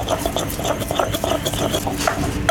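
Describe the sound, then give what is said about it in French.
A pestle taps and grinds confit garlic with a little oil in a mortar, making many quick, light, irregular knocks and scrapes in a steady rhythm with no talking. “on va les mettre dans un mortier. Ouais, on va mettre une gousse d'ail confite. On rajoute un petit peu d'huile.”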